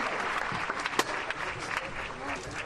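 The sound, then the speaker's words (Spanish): Crowd applause as a statue of the Virgin of Carmen is carried out in a religious procession by a team of bearers, a dense, steady patter of many hands with a voice speaking over it. “Sale la Virgen del Carmen. Entre aplausos.”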